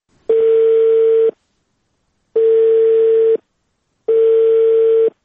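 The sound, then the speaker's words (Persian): A telephone ringing unanswered: three long, steady, mid-pitched buzzing ring tones, each about a second, separated by roughly one-second silences. “به طور مثال تلفونایشان چنین عکس العمل نشان میداد برای ما.”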